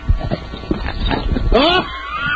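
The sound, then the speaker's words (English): Dogs in a frenzy in a studio, yelping and whining in excited bursts, with a rising harmonic whine near the end, all under steady talk. “The dogs are in a frenzy.”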